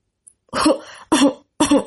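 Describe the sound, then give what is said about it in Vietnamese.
A person gives three short, dry coughs, evenly spaced. Each is a sharp, rasping burst that fades quickly, with silence between. “Kim Tuấn Tú ho khan, nhưng không nhúc nhích được chút nào.”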